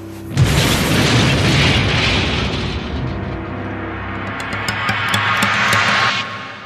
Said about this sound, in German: Das Ding explodiert!